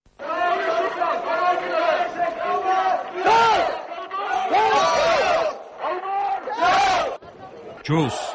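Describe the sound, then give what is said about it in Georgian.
A crowd chanting at a protest rally in Georgia, loud massed voices shouting a repeated call in unison, delivered in rhythmic phrases with brief gaps between them. “ეს ის შეძახილია, რომელსაც მიტინგზე მისული ადამიანი ვერაფრით აარიდებს თავს.”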